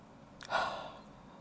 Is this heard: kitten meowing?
no